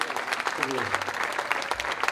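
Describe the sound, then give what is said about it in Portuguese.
Audience applause for a fado singer at a concert: steady, dense clapping that continues throughout, with a voice speaking over it. “Um forte aplauso então para o Pedro Moutinho.”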